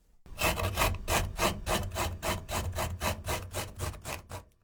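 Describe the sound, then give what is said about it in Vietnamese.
Peeled ginger rubbed across the grain on a grater, many quick, even rasping strokes in a steady rhythm, fairly quiet and alone. “Gọt vỏ gừng, sau đó đem mài.”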